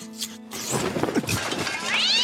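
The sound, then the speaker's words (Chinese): A feral cat perched on a wall top gives a short meow, a harmonic wavering cry that ends with a clear, higher tonal call. “那野猫怕不是以为秦放要拿果核丢它，喵一声窜的就没眼了。”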